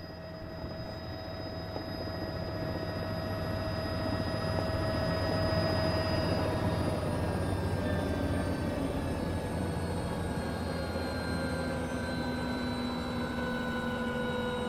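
An ornithopter aircraft landing gives a steady, droning engine roar with several thin whining tones above it. The sound swells slightly in the first seconds, then holds at an even, continuous level with no voices.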